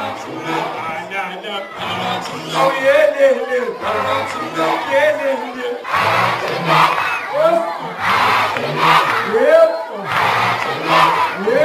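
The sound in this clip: School pupils in the Nkomazi area of Mpumalanga cheer a warm welcome. A crowd of young voices shouts and calls in loud, continuous waves throughout, with some high rising cries standing out.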